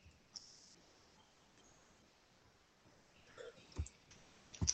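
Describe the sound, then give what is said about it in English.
Computer keyboard clicks: faint, sparse taps over a quiet hiss, one early tap and then a short cluster of sharper clicks near the end. “Oh my gosh, keyboard, why?”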